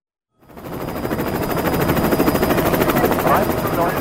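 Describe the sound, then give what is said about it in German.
Two Federal Border Guard helicopters taking off make a loud, steady, rhythmic rotor chop with a dense engine roar. The sound cuts in sharply and holds without a break. “Erst um kurz vor 10:30 starten zwei Hubschrauber des Bundesgrenzschutzes zum Militärflughafen nach Fürstenfeldbruck, westlich von München.”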